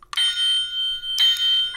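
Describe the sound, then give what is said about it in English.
A bright, high-pitched bell from a licensed bobblehead toy rings twice. Each ring is sustained and shimmering, with a short gap between them. “Now, if you listen to the bell,”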